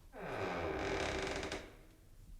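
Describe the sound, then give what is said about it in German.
A door slowly swung open with a long creak, a drawn-out groaning squeal that wavers in pitch for about a second and a half before fading into quiet, with no talking. “Vorsicht! Ich öffne jetzt die Tür.”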